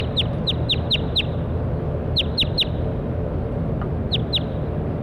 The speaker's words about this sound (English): Stop. That was bird 7-1.